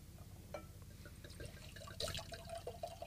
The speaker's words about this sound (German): Allein schon das Geräusch, wenn man Wein einschenkt.